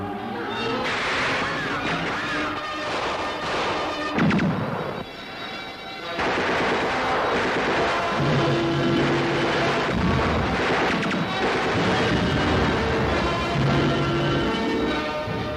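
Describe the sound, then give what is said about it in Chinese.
Gunfire and grenade explosions fill a battle scene with dense, crackling bursts of shots and heavy blasts running almost continuously. The barrage drops briefly into a short lull near the middle, then resumes at full loudness. “对松井的接待是从地雷开始的，没有随着地雷上天的敌人，就请你享受着仇恨的子弹，尝尝手榴弹的滋味吧。”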